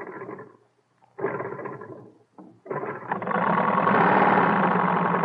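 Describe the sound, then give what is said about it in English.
Wright brothers' airplane engine being cranked and started, several short sputtering bursts with cut-outs between them before it catches into a steady, loud droning roar as the propellers run. “Start the propellers, Will. Benzene on? Benzene on. Switch all right. Got the switch on, too. Give it a crank. Here goes, then.”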